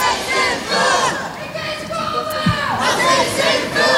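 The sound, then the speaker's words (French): Pro-Palestinian students protesting at the Sorbonne in Paris: a loud crowd shouts and chants in overlapping voices, a continuous roar of raised cries that swells and dips. “Après Sciences Po Paris, vendredi, nouvelle mobilisation hier d'étudiants pro-palestiniens. Ça, c'était à la Sorbonne, vous l'entendez.”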